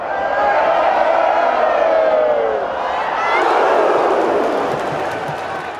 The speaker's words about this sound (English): Like a piece of music that if you just sit and listen to the crowd, you hear like how it swells and dives and peaks and then suddenly bursts. It sounds to me like an orchestra.